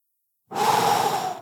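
A single deep breath, one long, soft, airy rush lasting about a second after a moment of silence.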